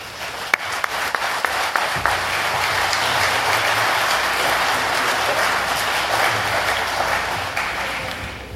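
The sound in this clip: Audience applause welcoming the president at an aviation awards event: a few scattered claps, then dense steady clapping swells in and carries on loud and even to the end.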